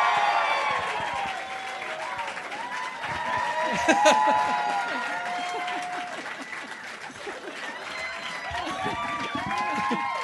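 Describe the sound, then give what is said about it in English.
Applause and cheering from a live comedy-show audience welcoming a comedian on stage: dense, sustained clapping mixed with whoops and laughter, while voices talk over it. “That is an even bigger ovation than our lights working. That is impressive.”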